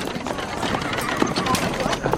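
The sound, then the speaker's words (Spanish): Hooves clip-clop as a horse-drawn carriage rolls along a street in Macondo, a quick, uneven patter of hoofbeats under people talking. “Un carruaje tirado por caballos y varias personas con vestidos muy elegantes avanzan por una calle de Macondo.”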